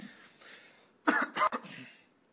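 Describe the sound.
Throat clearing and coughing from a dry throat: a rough, raspy clearing leads into a few sharp, hoarse cough bursts, then trails off quietly.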